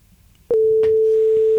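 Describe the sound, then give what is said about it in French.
A telephone line tone, a single steady mid-pitched hum that starts abruptly after a short quiet stretch and holds loud and unbroken, with a few faint clicks along the way. “Ah, le téléphone. Téléphone.”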